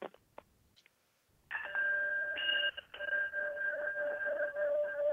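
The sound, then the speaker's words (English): A sound bowl being struck, opening with a few faint clicks before a bright, ringing tone with steady overtones that is re-struck and sustains to the end. “That's a sound bowl, and I wanted to hit that”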